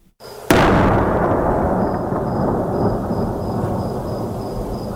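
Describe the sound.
Heavy artillery fire during fighting near a city in Helmand: one sudden, loud boom is followed by a long, deep rumble that rolls on steadily to the end.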